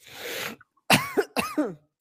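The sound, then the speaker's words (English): Coughing: a few harsh, loud coughs in quick succession, with a short pause after the first burst. No other sounds are heard. “I'm really sorry, y'all, for coughing in there.”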